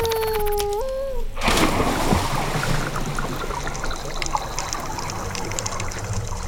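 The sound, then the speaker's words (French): Water splashing as someone enters the sea among rocks, a sudden surge of broad rushing noise that continues as steady sloshing and bubbling. “Entrons dans l'eau et rejoignons-le.”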